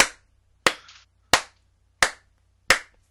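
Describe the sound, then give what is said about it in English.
Five sharp hand claps, evenly spaced about two-thirds of a second apart. Each is a crisp, bright crack that quickly decays into silence. “I'm also going to give this one 5 out of 5 hand claps.”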